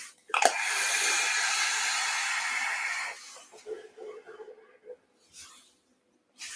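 A vape coil firing at 150 watts gives a loud, steady hiss that holds for about three seconds, then drops to softer, uneven sputtering crackles.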